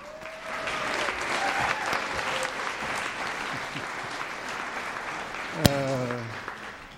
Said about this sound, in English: Let's give it up in a Cleveland fan welcome for Pastor Mark as he leads us in kingdom.